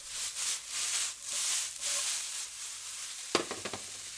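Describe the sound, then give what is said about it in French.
Apples and onions caramelizing in a pan give off a soft, steady sizzle with gentle surges, and a few sharp clinks sound near the end. “Donc là, les pommes et les oignons ont une belle caramélisation. Donc on va stopper le feu.”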